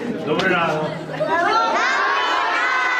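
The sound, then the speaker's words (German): Schoolchildren in a Ukrainian class shout and cheer as President Zelensky visits on the first day of school, a bright, high-pitched crowd of young voices swelling in waves, with excited chatter throughout. “Dort war Anfang Woche landesweit Schulstart und Präsident Volodymyr Zelensky hat eine Klasse besucht und die Kinder begrüßt. Das zeigt ein Bericht von CNN.”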